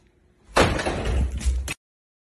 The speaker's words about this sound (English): and it has our favorite door slamming.